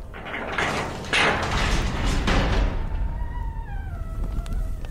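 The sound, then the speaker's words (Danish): A gate creaking open at a dwarves' dwelling: a dense, rumbling scrape, then a few thin, wavering squeals that slide downward in pitch toward the end. “jeg åbner lige porten nu.”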